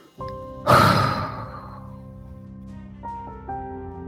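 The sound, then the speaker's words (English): A person takes a deep breath in, then lets out a loud, rushing exhale that fades over about a second. Soft, steady sustained tones play under the breath throughout. “our angel Michael switches the off button, we take our final deep inhalation and a loud exhale.”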